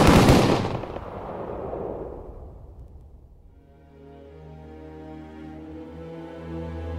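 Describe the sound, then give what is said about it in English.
Gunfire from a firing squad execution: one sharp, loud volley right at the start that decays over a few seconds, followed by a steady, sustained droning tone. “He was executed by firing squad on January 25th, 1949.”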